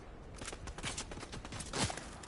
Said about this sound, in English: Now I'm getting shot from the distance.